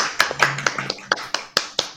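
Hand claps celebrating a prize being awarded, a steady, even run of sharp claps roughly every quarter second, about nine in all, with no one speaking.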